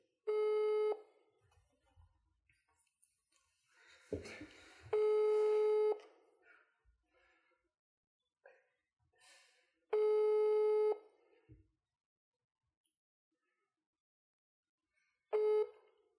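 A telephone call rings out after dialing: four one-second tones repeat at a slow, even interval of roughly five seconds, with soft clicks and handling noise in the gaps.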